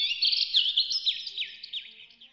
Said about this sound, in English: I love being in the forest and hearing the birds chirping.